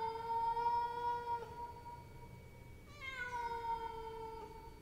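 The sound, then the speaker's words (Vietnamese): Cat meowing: two long, drawn-out meows follow one another, the second starting with a brief upward inflection before settling, fairly faint and with no voices. “con mèo nghiêng nghiêng đầu nhìn thằng Luân, đoạn kêu lên mấy tiếng meo meo”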